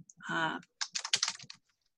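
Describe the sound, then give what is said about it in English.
Typing on a computer keyboard, heard as a quick flurry of clicky keystrokes lasting under a second, right after a brief burst of voice. “Okay, I'll type it for you.”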